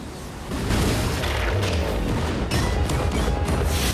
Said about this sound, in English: Just as Quatermain raises the axe and the creature is raising the deadly icicle, another of Skinner's bombs goes off.